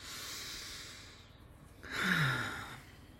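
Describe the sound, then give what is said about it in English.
Slow deep breathing, air drawn in through the nose and let out through the mouth: a long, soft, airy breath and then a louder, sighing exhale, with no talk. “Take another big deep breath in through your nose and out through your mouth.”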